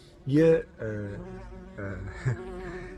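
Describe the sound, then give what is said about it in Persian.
A bee buzzing around a cameraman gives off several buzzy bursts that waver in pitch. The first burst is loudest, and the later passes are softer. “یه زنبور اینجا با فیلم بردار با بازی میکرد و علم رفت.”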